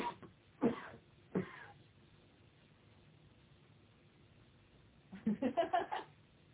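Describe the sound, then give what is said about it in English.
Two short, harsh coughs from a person, a fraction of a second apart and fairly faint, followed after a quiet pause by a quicker series of short vocal bursts. “I heard someone cough. I can hear someone coughing.”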